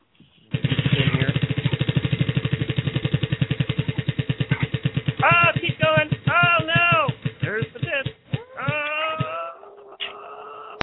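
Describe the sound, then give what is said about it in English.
A prize wheel spinning in a game-show segment, its clicker ticking rapidly and then gradually slowing over several seconds, with voices joining in as it winds down. “It's time for you to spin the wheel. All right, here we go. Spinning the wheel.”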